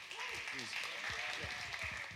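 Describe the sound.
Audience applause welcoming a speaker at a church: steady, fairly soft clapping continues throughout, with voices audible over it.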